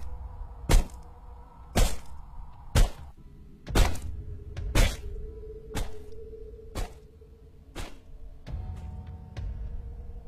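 Repeated heavy thudding blows from a weapon striking down, about ten sharp thwacks at a steady pace of roughly one per second, the last few fainter, over a low humming backdrop.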